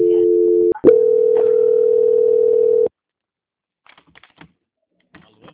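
A telephone call-transfer tone during a call being put through: a steady electronic tone breaks with a click, then resumes as one loud continuous tone for about two seconds before cutting off, followed by a few faint clicks.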